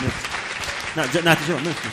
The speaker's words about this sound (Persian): مرسی تشویق کنید.